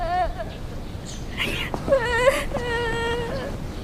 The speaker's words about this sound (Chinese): 他们呀，非得找妈妈，怎么劝都劝不住。您看，在这都快哭了一个小时了。